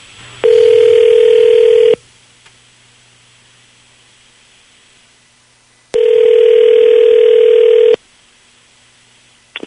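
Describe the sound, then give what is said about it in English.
Ringback tone of an outgoing telephone call heard on the caller's line: two long, steady electronic rings separated by a quiet pause, ending with a faint click as the line connects. “we will call your boyfriend Corey right now, and you will be able to hear everything that's said”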